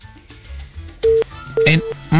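A telephone tone sounds on a call to a radio studio that fails to connect, giving a few short, steady electronic beeps at a regular pace alongside other faint sounds.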